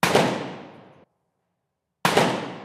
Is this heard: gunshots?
yes